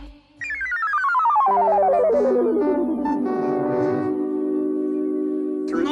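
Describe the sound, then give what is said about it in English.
A telephone rings with a loud electronic tone that glides steadily downward, then settles into sustained, chord-like tones and stops abruptly. “But two rings. I have to answer the phone there. No, I'm counting the rings. Three rings.”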